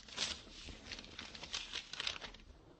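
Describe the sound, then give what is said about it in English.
Paper rustles as a letter is pulled out of an envelope, soft crinkling and scraping in irregular little bursts, faint and alone, with no voices. “Her letters to me. Go ahead, take one of them out of the envelope and read it.”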